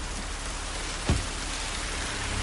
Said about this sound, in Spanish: H se queda inmóvil bajo la lluvia